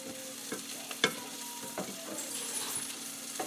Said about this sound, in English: I'm just gonna let these saute a bit.